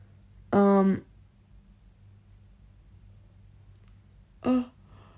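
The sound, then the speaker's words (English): A person yawns aloud, a short voiced, tonal groan against near silence and faint hiss, with a brief vocal sound a few seconds later. “pardon me. That was rude to just start yawning on y'all like that.”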